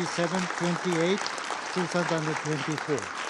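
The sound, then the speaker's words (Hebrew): Applause in the UN Security Council chamber after a resolution vote, a steady wash of many hands clapping underneath a person speaking clearly over it. “בוא נשמע רגע את רגע ההצבעה ואת התשואות של הקהל שם.”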